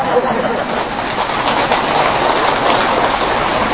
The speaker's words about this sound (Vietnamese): Mưa tạt chúng ta dời xích vô